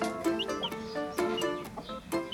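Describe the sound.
Chickens on a small breeding farm cluck in many short, harmonic bursts, with a few higher chirps among them, at moderate loudness.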